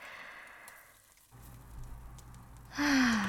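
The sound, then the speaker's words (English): A person takes a deep breath: soft, airy breathing builds to a louder, voiced sighing breath at the end. “Okay, I'll take a deep breath.”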